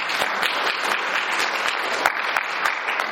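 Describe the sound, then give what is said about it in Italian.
Audience applause at a book presentation: a sustained wash of many hands clapping, with a few sharper individual claps poking out of the steady, moderately loud texture. “Un applauso.”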